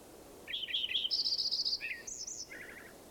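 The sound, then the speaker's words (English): Birds call in a few short, high-pitched phrases: quick chirps and a run of rapid, even trills, then a couple of shorter twittering bursts, heard alone against a faint background hiss. “More birds in there.”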